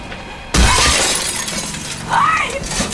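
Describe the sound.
A bus window shatters as a head is smashed through it, starting with a sudden, loud burst of breaking glass, then continued crunching and a second surge of smashing.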